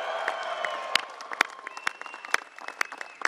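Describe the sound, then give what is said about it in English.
A crowd applauding to welcome the world champion Cleveland Cavaliers at the White House: steady clapping with sharp individual claps standing out. “Welcome to the White House and give it up for the world champion Cleveland Cavaliers.”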